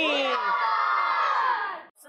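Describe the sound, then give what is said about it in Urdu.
A crowd chants a religious slogan in unison in reply to a leader's call, many voices joined in one loud sustained shout that holds for under two seconds, then breaks off abruptly. “نعرہ لگائیں گے دعوت اسلامی”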